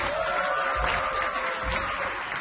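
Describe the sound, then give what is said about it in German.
Applause from an audience as performers are introduced at a stage event: a dense, steady patter of many hands that holds at an even level throughout, with no voices standing out. “Applaus!”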